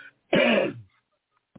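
A harsh, rasping throat clearing rings out once, loud and alone, followed after a pause by a brief faint sound.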